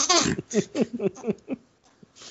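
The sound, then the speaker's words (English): A baby girl fusses and babbles in a string of short, high vocal bursts. Several quick syllables trail off into quiet near the end. “Your people aren't gonna like Star Wars if they keep hearing a baby the whole time. Baby girl, go back to sleep.”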